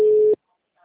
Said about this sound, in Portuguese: Tô ligando aqui.